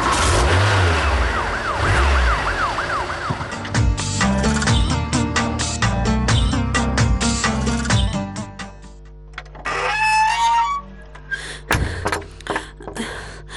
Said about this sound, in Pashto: اوس خبرې پرېږدئ، پورته شئ موټر ته. سر موټر ته حرکت ورکړه.